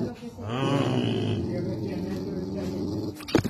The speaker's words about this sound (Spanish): Ahorita comienza a ladrar. ¿Ve?